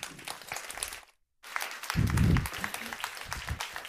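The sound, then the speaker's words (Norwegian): Faint applause from a university audience welcoming a speaker, a soft, steady patter that breaks off briefly and then resumes. “jeg foreslår at vi møter henne med en applaus”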